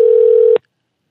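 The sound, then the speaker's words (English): Skype's call tone sounds as one steady, mid-pitched electronic beep, loud and alone, holding for about half a second before cutting off abruptly into silence. “It's a weird noise that Skype makes.”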